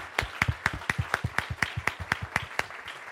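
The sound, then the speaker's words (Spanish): An audience applauding in church, clapping together in a fast, even beat that holds steady throughout, moderately loud with no talking. “Si le va a dar un aplauso, dele fuerte. If you're going to give the Lord a big hand, give him a big hand.”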